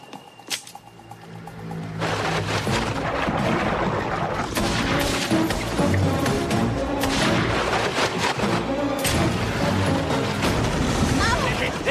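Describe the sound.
Gunfire and blasts from a revolver, a crossbow and a grenade as rednecks attack a great white shark: a brief sharp crack, then a dense, loud, unbroken barrage of shots and booms.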